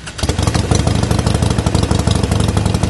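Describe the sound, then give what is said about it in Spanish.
A Harley-Davidson motorcycle engine idles with a loud, steady low rumble of rapid, even pulses. It starts after a brief quieter moment at the very beginning and runs unbroken to the end, with no voices. “Está ahí, ¿no? Un motor. Sí, ¿cómo que no? Lo está buscando. El motor Harley.”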